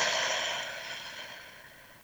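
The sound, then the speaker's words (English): A long breath out through the mouth, as if through a straw, after an inhale through the nose. It is a soft, steady hiss that slowly fades. “let's take a breath in through the nose, out through the mouth, like through a straw.”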